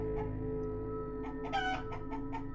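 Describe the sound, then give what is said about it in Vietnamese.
A chicken about to be slaughtered squawks and clucks in a few short bursts, with one louder cackle near the middle, over a steady low hum. “Rồi tiếng chó con kêu la, tiếng con Hồi gào rú ầm ĩ, tiếng gà quan quát trước mũi dao số phận.”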